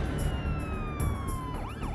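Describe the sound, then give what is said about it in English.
Police and emergency vehicle sirens wail at night as responders race to a crime scene, a loud steady tone sliding slowly downward before switching to a rapid rising-and-falling warble at the end. “Sirens pierced the night as neighbors, cops, and paramedics raced to a crime scene.”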